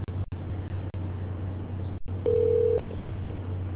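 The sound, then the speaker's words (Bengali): A telephone call line: steady low hum and hiss with a few brief dropouts, then a single steady electronic tone lasting about half a second. “Call তো লাগিয়ে ফেললাম”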